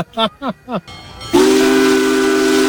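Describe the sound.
A locomotive passing through Shelton sounds its whistle: a long, loud, steady blast over broad hiss, preceded by a few short tonal bursts.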